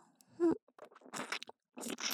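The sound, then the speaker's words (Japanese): ASMR mouth sounds of someone pretending to eat the listener's ears: a few wet, crunchy bites and chewing noises in short bursts with quiet gaps between them. “次は、さっきみたいに、中まであなたのお耳を食べてあげる。いただきま”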